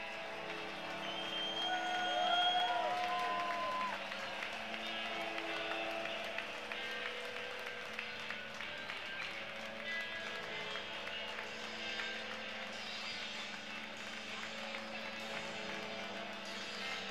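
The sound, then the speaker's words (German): Stadium crowd ambience at the Millerntor stadium before a St. Pauli football match, with players waiting in the tunnel. A faint, steady roar of many voices with scattered claps continues throughout, and no single event stands out. “Ich bin wieder ruhig, weil hier wieder stimmungsvolle Töne aus dem Millerntor zu euch gelangen.”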